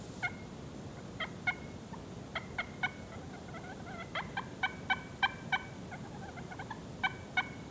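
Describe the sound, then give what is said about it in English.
A slate turkey call being played produces many short, sharp, squeaky yelps in uneven clusters, fairly faint, with no talking. “This one is a slate call.”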